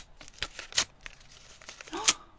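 Paper being torn up: a few sharp, bright ripping bursts, the loudest near the middle and at the end, separated by softer crinkling and rustling.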